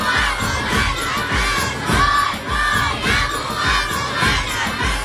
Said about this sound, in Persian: داد بزنن بچه ها، داد بزنن بچه ها